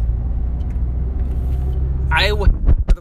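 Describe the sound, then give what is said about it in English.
Engine and road rumble heard from inside a moving car, a steady, loud low drone throughout, with a voice speaking briefly near the end. “I'm kind of pausing here because I'm driving and doing this at the same time.”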